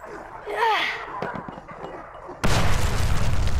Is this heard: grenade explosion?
yes